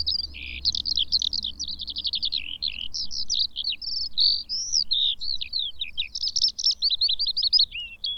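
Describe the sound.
Skylark song of high notes and trills pours out in a continuous, breathless stream of rapid chirps, warbles and buzzy trills, fairly loud and unbroken across the whole clip, with a faint low rumble underneath.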